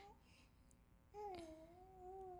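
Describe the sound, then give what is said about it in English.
A fussy three-month-old teething baby babbles: a short faint sound at the start, then, about halfway through, a drawn-out vocal that dips slightly and holds a steady pitch to the end, soft overall. “I had to pick the little one up. She was getting a little fussy.”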